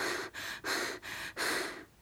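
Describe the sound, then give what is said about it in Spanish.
Deep, steady breathing while walking toward a village: a run of long, airy breaths separated by brief pauses, with no voices. “respiro grande, mucho, mucho. Respiro sin humo.”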